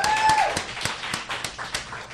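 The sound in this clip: Audience clapping for itself at the Gallery Cabaret: sparse, fairly soft claps in an even, regular beat rather than a full burst of applause.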